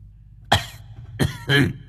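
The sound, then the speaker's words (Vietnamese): Harsh coughs come from an old man after he draws deeply on a cigarette. There are three coughs: a single one, then a closely spaced pair, the last longest and loudest, each against near silence. “Đoạn lão ho sủ sụ:”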